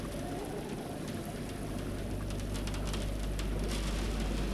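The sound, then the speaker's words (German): Rain beating against a window pane during a thunderstorm, a dense, steady patter over a constant low rumble that keeps on without a break. “Es geht noch mal los, du! Der Regen klatscht gegen die Scheibe.”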